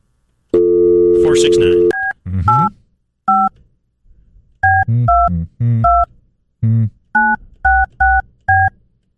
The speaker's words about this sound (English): So, let's give it a call. Okay. Ring it up. Let's see. I got dialed quick enough.